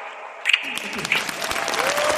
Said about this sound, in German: Und ich hoffe auf einen riesen Applaus.